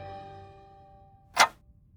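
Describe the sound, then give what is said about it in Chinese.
A single sharp click rings out as the thick hour hand on a giant clock face snaps forward one notch. A fading, ringing tone dies away just before it. “巨大的表盘上，唐默脚下的粗壮时针咔嗒一声，顺时针地向左侧滑了一格。”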